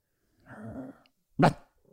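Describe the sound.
A dog growls, a low rough rumble lasting about half a second, then one sharp, loud bark-like burst follows after a short pause. No one talks over it.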